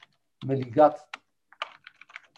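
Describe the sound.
Typing on a computer keyboard, heard as a few soft, scattered key clicks after a brief voice. The clicks are quiet and irregular.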